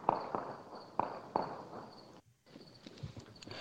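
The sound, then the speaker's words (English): Faint gunfire in Afghanistan, recorded on a phone, comes as a few sharp cracks in the first moments, then sparse quieter knocks over a low background. “You can hear the gunfire in the background.”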